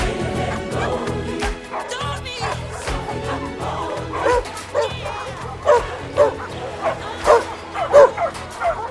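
Puppies bark and yip in a play area set up for them, with many high, overlapping yips, barks and whimpers that grow louder and busier toward the end.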